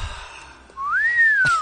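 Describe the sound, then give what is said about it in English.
A person whistling a single loud note that glides upward, holds briefly, then slowly sinks in pitch over about a second. “He was whistling”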